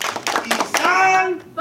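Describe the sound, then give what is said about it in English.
A ninth grade ethnic studies class performs its unity clap on the last day of school: a few quick, sharp hand claps, then a drawn-out vocal shout from the group that trails off. “It's the last day of school, and the last day ninth grade ethnic studies will do their unity clap.”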